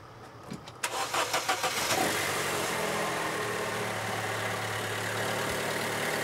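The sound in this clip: A car's starter solenoid clicking because the battery is too weak to crank: a short burst of rapid, repeated clicks, followed by a steady low drone that continues to the end.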